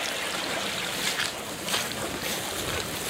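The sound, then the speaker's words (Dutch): A brook running full and fast after a spell of rain, a steady, broad rush of water that continues unbroken and fairly quiet throughout, with no voices. “En dan passeren we de Springendalse Beek. En die stroomt voluit, kan ik je vertellen. Ja, dit is echt... Het stroomt flink door, hoor, met die regen van de afgelopen tijd.”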